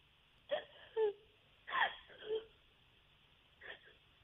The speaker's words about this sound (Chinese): 啊，那我们现在不哭了，行吗？还是说，还是说你需要我给你时间让你哭一会儿？